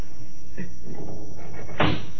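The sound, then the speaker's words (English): A window being opened, a rubbing slide with a faint squeak, then a louder scraping burst near the end over a constant background hiss. “Open the window, will you? It's hot in here. It ain't a bit hot. You've been drinking too much. Open it anyway.”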